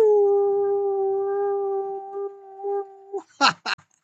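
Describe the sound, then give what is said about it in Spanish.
A human voice imitates a howl, holding one long steady tone for about three seconds that wavers slightly near its end, then breaks off into a few short, choppy bursts. “un gran aullido lleno de agradecimiento para mi directora Fanny Mendieta.”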